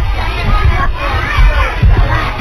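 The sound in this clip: Crowd noise with children shouting and cheering for a kindergarten performance, loud and uneven, with several swelling bursts of voices over a constant murmur.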